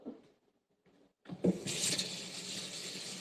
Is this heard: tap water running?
yes